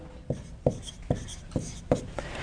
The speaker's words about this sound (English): Now I want to write this one down. It's a really interesting word.